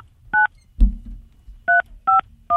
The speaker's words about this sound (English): Let's give her a call right now.